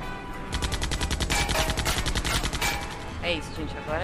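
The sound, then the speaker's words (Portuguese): Machine gun fire from a car close behind during a desert car chase: a dense, rapid, evenly spaced stream of loud cracking shots that keeps up steadily for several seconds. “tem um carro bem próximo agora, ele tá descarregando a metralhadora em vocês”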